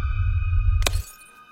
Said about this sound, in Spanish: El espejo se quiebra.